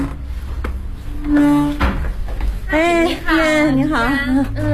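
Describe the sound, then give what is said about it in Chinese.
A door is pushed open to enter a building behind a concrete courtyard wall, with a few dull knocks and thuds before people start talking. “现在我们就推开门进去”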